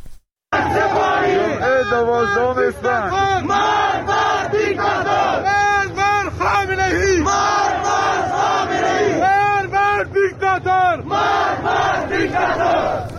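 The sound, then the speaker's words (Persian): A crowd of protesters chants slogans in the streets of Zahedan. Loud, massed voices shout in rhythmic bursts that repeat with only brief breaks throughout. “این صدای مردم در زاهدان امروز هست”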